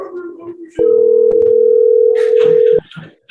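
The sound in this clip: A telephone dial tone sounds while calling back on the phone: one loud, steady, unwavering tone lasting about two seconds, with brief voices just before and after.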